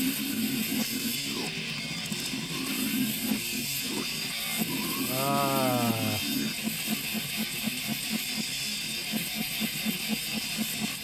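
A death metal song plays from a recording, fairly quiet: a dense, distorted guitar roar over fast, steady drum hits that keep pulsing throughout.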